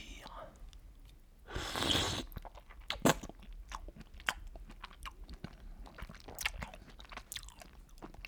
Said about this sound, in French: Décaloter le petit pied, porter l'huître à sa bouche et la déglutir.